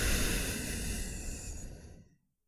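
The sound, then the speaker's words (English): A single long, deep exhale during a guided breathing exercise, a breathy hiss that tails off and fades to silence after about two seconds. “Take a deep breath in, out,”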